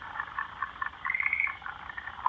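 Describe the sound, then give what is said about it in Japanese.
Frogs croaking near a junior high school in Yamaguchi town: rapid, rattling trills in a continuous chorus that swells and dips, with no voices. “あるいはケロケロと可愛い声がしますが、まあそういうカエルの声も街中ではもうほとんど聞く場所がなくなったかなと思うんですが、”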